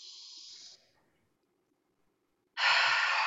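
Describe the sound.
A deep breath during a guided breathing exercise. A soft airy breath fades into nearly two seconds of silence, then a loud, rushing intake of air begins and holds.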